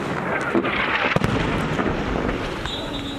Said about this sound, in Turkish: İsrail ordusunun Lübnan'a yönelik topçu saldırıları akşam saatlerinde de sürdü.